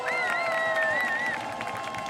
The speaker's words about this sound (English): give it up, a very warm round of applause